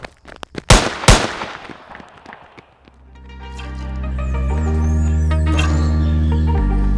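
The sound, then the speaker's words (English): Gunfire from a radio drama's escape scene: a quick string of sharp, loud shots with two especially heavy blasts. After the shots, sustained tones swell in and hold steady, with no voices. “Give it to them. They're shooting at us. Come on, run for it.”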